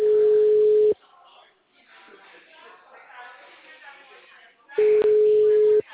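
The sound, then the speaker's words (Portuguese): Telephone ringback over a phone line as a call is placed: two steady, mid-pitched rings, each about a second long, separated by several seconds of faint line noise. “Por enquanto, eu tô dando uma ligada. Alô?”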